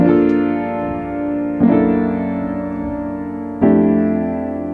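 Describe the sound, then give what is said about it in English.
Piano plays a ii-V-I in F major with a tritone substitution: G minor 7, then the second chord over a G flat bass in place of C, then F major 7. Three sustained chords, each struck and left ringing, with no voices. “So what I'm going to do now is I'm simply going to change the bass note in the second chord from a C to a G flat. I'm moving it down a tritone, and this is what it sounds like.”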